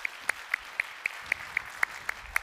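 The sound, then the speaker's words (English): Evenly spaced claps from a church audience welcoming worshippers, about ten sharp beats in a steady rhythm, fairly faint and without voices. “So if you guys would, here in person, would you put your hands together?”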